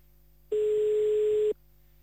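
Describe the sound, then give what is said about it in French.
A single telephone ringing tone on a call placed to Blaton, a steady mid-pitched buzz lasting about one second, with faint hum and near-silence before and after. “On appelle à Blaton maintenant. Voilà. Alors, ça va décrocher.”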